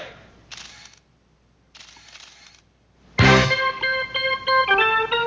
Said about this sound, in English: I didn't realize there are all those camera noises at the start. I thought it would just give you that opening sting.